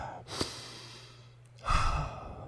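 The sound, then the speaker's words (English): A deep human breath comes as airy, breathy rushes: a brief soft one early on, then a longer, louder sigh-like breath near the end. “Deep breath.”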